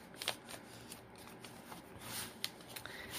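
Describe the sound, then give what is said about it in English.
Paper crackles and rustles as an envelope-style flyer is folded in half for a craft project: several soft, crisp bursts of crinkling and a few light snaps, quiet and irregular, with no talking. “This is an inside envelope flyer, and I'm going to fold it in half,”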